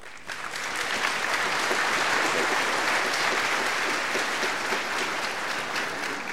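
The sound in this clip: Audience applause welcoming a guest speaker: a dense, steady wash of clapping swells in within the first half second, then holds at an even, loud level to the end without any talk over it.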